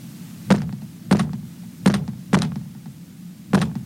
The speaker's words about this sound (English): There it is again. What kind of evil spirit is behind the wall doing that? That's no evil spirit. That's an animal.